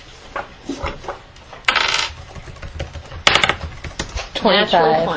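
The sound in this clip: A twenty-sided die clatters across a table during a tabletop role-playing game in a few short rattling bursts, with people talking around the rolls.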